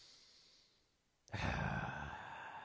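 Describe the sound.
A deep breath: near-silence at first, then an abrupt breathy rush of air starting around the midpoint that holds steady to the end, soft and sigh-like, with no talking.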